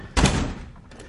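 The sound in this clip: A single heavy door slam in an office as a visitor is shown out: a sharp thud with a short, dull decaying tail, loud and alone.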